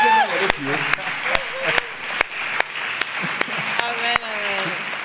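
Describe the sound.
Congregation applauding during a church service: a bed of continuous clapping runs under voices calling out, while a few sharp, individual claps punctuate it at fairly regular intervals.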